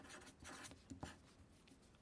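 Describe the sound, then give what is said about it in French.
Pen scratching on paper in ASMR style: a soft, continuous, scratchy writing texture with a few sharper taps along the way, quiet and with no talk. “ASMR, maman, ASMR, ASMR, j'écris, j'écris.”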